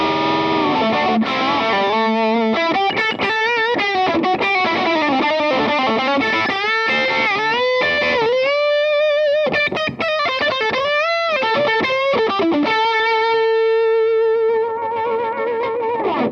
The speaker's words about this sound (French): on va baisser le volume sur la pédale d'overdrive, mais monter le gain à fond. Vous allez voir que là, le rendu est nettement plus sale.